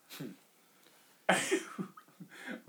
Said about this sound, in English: Why did you breathe like that?